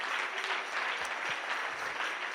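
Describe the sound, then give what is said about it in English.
A church audience claps together in a dense, even stream of many hands, held at a soft, steady level from start to finish. “Clap your hands to the Lord together.”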